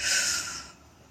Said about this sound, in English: When I catch the spinning and the stories, I breathe in